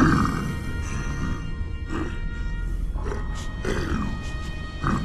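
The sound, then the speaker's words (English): Puzzled growling and roaring from a creature: rough, loud, continuous throaty rumbling with a few harsher surges, heard alone without speech. “Puzzled growling, roaring.”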